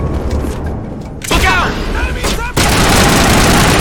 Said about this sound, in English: Bartender gets shot. Thug gets shot.